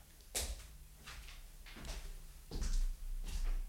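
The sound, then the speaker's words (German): A door opens as someone comes in, with a few soft knocks and bumps spread across the moment and a heavier thud toward the end, no voices over it. “kommt gerade zur Tür herein”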